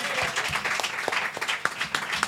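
Audience applause: a dense, continuous wash of many hands clapping at once, loud throughout, with some sharper individual claps popping out of the crowd noise.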